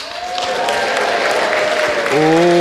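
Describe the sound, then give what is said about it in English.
An audience cheers, shouts and applauds to vote for a team's armor, a dense wash of clapping with voices calling out throughout, and a louder voice rising over the crowd near the end. “I want to hear some cries, I want to hear some shouts, some applause.”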